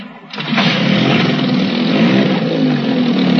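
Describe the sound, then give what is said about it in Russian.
A boat motor starts on choppy water with a short cranking burst, then settles into a loud, steady, rough running drone that continues to the end, with no talk. “Мотор запустился сразу, но тут же и заглох.”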